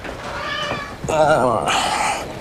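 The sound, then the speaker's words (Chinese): A pet cat meows, a single drawn-out call with a wavering pitch that follows a moment of talk, its faint ending trailing into the background. “你还养猫啊？ 对，这是我小妈养的猫”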